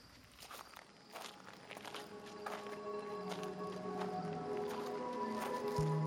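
Footsteps crunch up a winding gravel and stone walking ramp through the woods at night, a steady series of many scuffing steps that grow gradually louder, with no talking.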